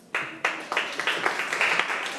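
Many hands clap together during a Thai language lesson, sharp claps in a quick, fairly steady rhythm over a continuous patter of applause.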